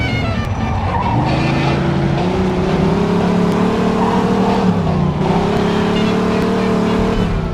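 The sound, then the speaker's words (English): A speeding car in a video-game police pursuit. Its engine is a loud, steady drone that rises slowly in pitch, dips briefly near the end, then carries on over constant road noise. “pursuit of a speeding vehicle.”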